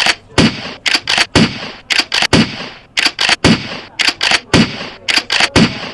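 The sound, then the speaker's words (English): Shotgun blasts fired at an armadillo: many loud, sharp reports crack out in quick clusters of two to four, repeating across several seconds with brief gaps between the groups. “Hurry, get the shotgun and shoot it.”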